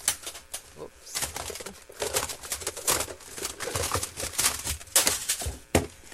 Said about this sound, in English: Okay, let me find today's tape. It's underneath.